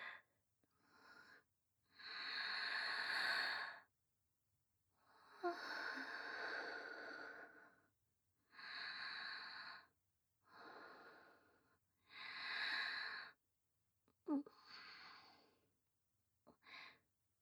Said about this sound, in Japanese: 深呼吸。